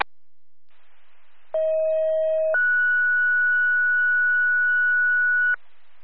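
A two-tone dispatch alert sounds over a fire department radio channel: a steady lower tone for about a second, then a higher steady tone held for about three seconds, loud and electronic, with faint static before and after.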